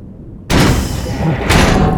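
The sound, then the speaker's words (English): A big latched hatch is opened by hand: a heavy clunk sets off rough, grinding noise, and a second clunk follows about a second later. “I see the hatch now. Oh, it's big. I'm gonna try and open it. Looks like just a latch, no electronics.”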